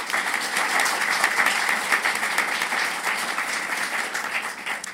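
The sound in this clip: Audience applause welcoming a speaker to the stage at a talk, a dense, steady clapping that holds at an even level throughout with no voices over it.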